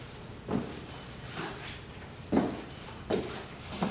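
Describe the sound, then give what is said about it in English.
Footsteps of a person trudging up stairs: a few dull, faint thuds, unevenly and slowly spaced across a quiet background. “then looks down to see his brother Brad trudging up the stairs toward him”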